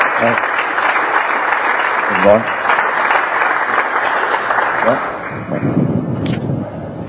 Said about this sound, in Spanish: Y yo quiero dar un aplauso aquí a otra vez a Antonio y a Maloba.